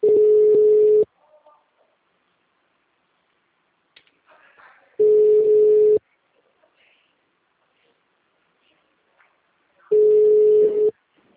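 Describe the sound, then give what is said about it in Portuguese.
Telephone tone while a call sits on hold during a transfer: three steady one-second beeps at a single pitch, spaced about five seconds apart, with near-silence between them. “Por favor, aguarde. Estamos transferindo sua ligação.”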